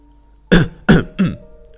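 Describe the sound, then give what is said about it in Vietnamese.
Three short, dry coughs come in quick succession, each loud and abrupt with a brief gap between. The last is slightly softer, and no one speaks. “Cục trưởng Động ho khan một tiếng rồi nói”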